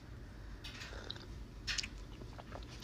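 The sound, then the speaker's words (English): Coffee being sipped: two faint, short slurping mouth sounds over a low steady hum, with no talking. “wait a minute, I need to sip on my coffee”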